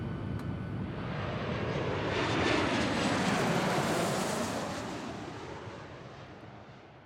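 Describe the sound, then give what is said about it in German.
Airplane engines roar in flight as a broad, rushing noise that swells gradually to a peak near the middle, then slowly fades, with no voices. “Ladies and gentlemen, this is your captain speaking. Welcome to flight 3IN2021 here at Terminal 1. Fasten your seatbelts, sit back and enjoy the flight.”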